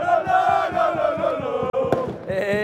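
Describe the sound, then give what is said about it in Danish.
A street crowd in Aarhus celebrating a football championship, loud sustained massed chanting in a bus street, carried over a regular rhythmic pulse and continuing almost without a break. “Det kan jo selv prøve at vurdere ud fra den her lyd. Altså, festen den startede klokken 8, og nu har den varet i 4 timer hernede ved busgaden”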